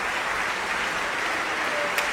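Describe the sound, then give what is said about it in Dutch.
Concert hall applause for a basso continuo section at an early music festival. Many hands clap in a steady, even wash that holds at one level throughout, with no talk. “Dit is even applaus voor de basse continuo sectie.”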